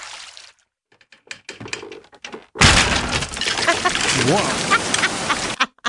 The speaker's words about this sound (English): That is the sound of all of the nets getting so full that they were almost breaking.